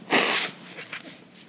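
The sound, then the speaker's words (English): A nose blow: one loud, breathy burst lasting under half a second, followed by faint, softer noises. “And the sin of blowing your nose.”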